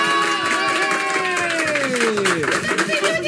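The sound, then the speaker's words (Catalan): A studio audience from Girona shouts hello together: a dense, loud mass of many overlapping voices with sliding, rising and falling shouts, sustained for around three seconds. “I avui tenim un públic que ens acompanya de Girona. Hola! Home! Crideu, que se'ho senti per la ràdio.”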